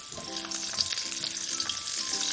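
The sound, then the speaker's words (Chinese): Ginger slices, garlic cloves and scallion fry in hot oil over low heat for twice-cooked pork, giving a steady, crackling sizzle with no talk. “油热了以后开小火，然后姜片、蒜瓣、葱爆香”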